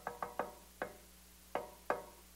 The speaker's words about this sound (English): it says he stands at the door and knocks. Now, it's not one of those knocks that, you know, you get when you're at the hotel room and you know, you forgot your key and your wife's there and you just kind of go.